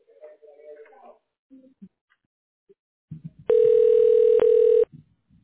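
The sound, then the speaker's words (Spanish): A telephone dial tone sounds while a call is being placed: one loud, steady, even-pitched tone lasting about a second and a half with one tiny break, with brief speech before and after it. “Vamos a hacer la llamada.”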